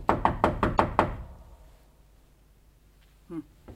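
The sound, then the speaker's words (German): Knocking on a door in a building corridor: a quick, evenly spaced run of firm knuckle raps, then quiet as the knocks die away unanswered. “Klopfen wir nochmal.”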